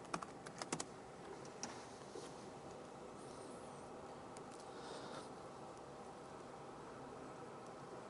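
Typing on a computer keyboard, with a few sharper key clicks at the start and then a faint, continuous patter of keystrokes over a steady background hiss.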